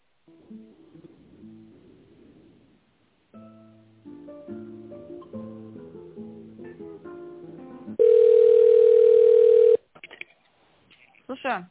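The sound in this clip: Telephone tones while a call is being transferred: a run of electronic melodic beeps, then a loud, steady, sustained tone, followed by a few brief clicks and short tones.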